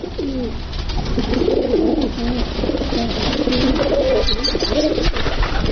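Pigeons coo in soft, throaty, rolling calls, with many low, warbling phrases repeating one after another over a steady background murmur.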